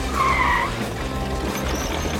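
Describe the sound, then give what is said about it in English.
Tires squeal as a racing bathtub car with a sidecar skids: a sharp, high squeal in the first half-second, then a continuous engine and road roar that holds steady to the end. “We're up on two wheels. We're on four wheels. We're gaining on them. Put the pedal to the metal”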